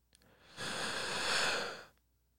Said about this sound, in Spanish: Vamos a respirar a ver qué ocurre. Venga. ¿okay? Tú me vas a decir. ¿Mm? Jale el aire por la boca.